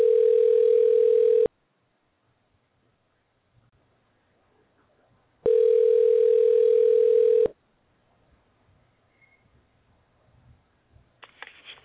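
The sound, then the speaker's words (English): Telephone tone heard while dialing out. Two long, steady, mid-pitched tones, each lasting one to two seconds, are separated by several seconds of near silence. Faint scattered clicks and handling noise follow. “bear with me for one moment while I operate the machinery. Okay, we're dialing out now.”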